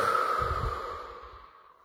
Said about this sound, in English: So, let's take some deep breaths in and out.